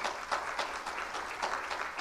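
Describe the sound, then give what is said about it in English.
A church audience claps in praise during a sermon, a dense, even patter of many hands at moderate level, swelling in a few soft waves. “Can you give the Lord a clap of praise for those kinds of testimonies?”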